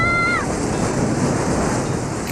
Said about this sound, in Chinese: 潮来了，快上来呀！